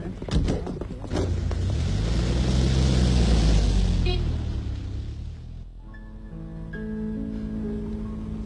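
A car driving away, with a low engine rumble that swells and then recedes over several seconds, followed by quieter steady tonal sounds.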